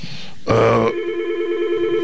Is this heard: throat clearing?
no